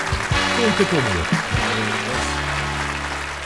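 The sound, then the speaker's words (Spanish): An audience applauds to welcome a guest on a talk show, a steady wash of clapping that runs beneath a man speaking. “un fuerte aplauso y una hermosa bienvenida a Heraldo.”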